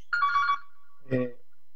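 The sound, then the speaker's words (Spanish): A telephone ringtone for an incoming call sounds as one short, bright electronic burst, then a brief lower sound follows after a pause. “me están llamando. Tengo una llamada importante. Está llamando Master Voice.”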